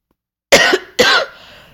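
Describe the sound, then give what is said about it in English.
Two sharp coughs in quick succession, loud and harsh, the second trailing off into a faint rasp. “excuse me. I'm sorry. I had a little bit of a cough there.”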